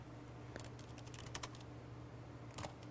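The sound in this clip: Faint, quick keystrokes on a computer keyboard as a short description of a funny hat for sale is typed, a few light clicks in small bursts over a quiet steady hum.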